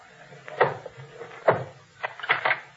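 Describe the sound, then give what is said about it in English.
Knocking on an inn door with the handle of a sword: a few sharp, woody knocks, the first two spaced apart and the rest in a quicker cluster near the end. “I'll knock with the handle of my sword. That'll rouse them.”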